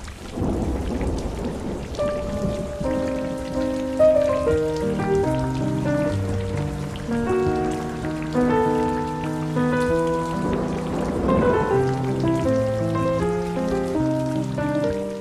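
Rain falls with thunder, a steady patter with deep rumbles at the start and again later. A slow melodic instrumental line plays over the rain.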